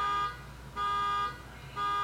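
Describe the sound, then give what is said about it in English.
A car alarm goes off outside a house with a loud, steady electronic tone in repeating bursts of about half a second, alternating with a quieter, noisier phase between them. “sorry if you guys hear that. Someone's alarm is going off outside my house.”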